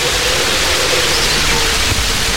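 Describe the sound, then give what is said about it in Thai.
Heavy rain pouring down on a forest during a thunderstorm, a dense, steady hiss with no breaks or variation, loud and continuous, with no voices. “ในที่สุดฝนก็ตกกระหน่ำลงสู่พื้นดินราวกับมารั่ว”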